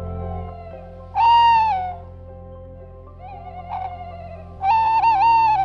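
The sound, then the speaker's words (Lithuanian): Barn owls call at night in three drawn-out tonal hoots. The first and last are loud and the middle one fainter, over a low steady hum. “Naktimis ūbauja naminės pelėdos.”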